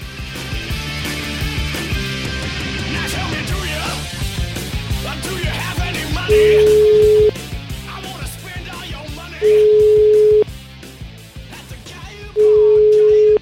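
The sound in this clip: A telephone ringback tone sounds as a call is placed: three steady, even-pitched tones, each about a second long, spaced a few seconds apart over a continuous busy background.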